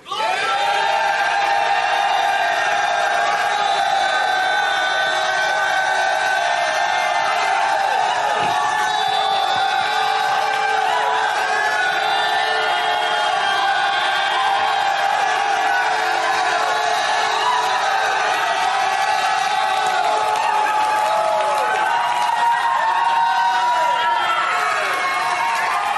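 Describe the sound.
Many men at a church gathering shout together in a loud, sustained roar of voices that holds steady throughout, with whoops rising above the mass.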